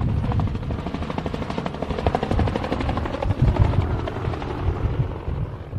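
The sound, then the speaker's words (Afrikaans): Steady whirring drone of a gyrocopter in flight, a recreational aircraft with three fixed wheels, two long rotor blades on top and a large rear propeller, with a fast chopping beat running through the loud, continuous engine noise. “Giro vliegtuie sien vreemd daaruit. Met 'n romp wat soos 'n koe lyk, drie vaste wiele, twee lang lemme bo-op en 'n groot skroef agter, word dit as ontspanningstuie beskou,”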